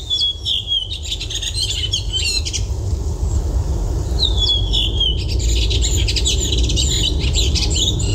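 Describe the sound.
A thrush sings in bursts of high, bright chirps and trills, captured on a phone. Two bouts of song rise over a steady low rumble, separated by a short quieter gap.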